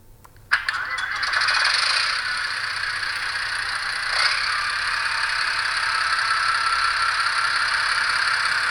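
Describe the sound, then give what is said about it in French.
A vehicle engine starts up in a video game, an abrupt onset after near silence that settles into a steady whirring, rattling drone with one brief surge partway through. “On va démarrer Mathéos et on va faire un peu de rodage. En appuyant sur 1.”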